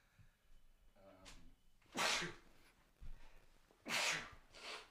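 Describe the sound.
A person sneezes in a couple of loud, sharp, noisy bursts, with a brief voiced sound before them.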